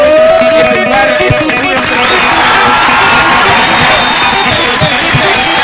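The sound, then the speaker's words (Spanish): Audience applause and cheering at a live event, a loud continuous wash of crowd noise with whoops, steady throughout. “un aplauso para el bar”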